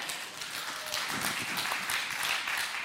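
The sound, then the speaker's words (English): An audience breaks into applause, a dense, steady rattle of many hands clapping at moderate volume that holds without pause. “I love how you're applauding like it's an accomplishment.”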